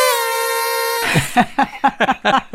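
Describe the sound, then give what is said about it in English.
A single horn toot rings out as a steady, bright, buzzy tone for about a second before it cuts off abruptly. People then start talking. “So toot the horn again.”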